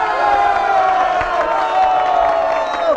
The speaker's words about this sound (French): L'Assemblée veut vous faire une ovation.